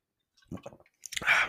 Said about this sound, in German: Ich habe meinen Schluck getrunken. Verzeiht mir das bitte ja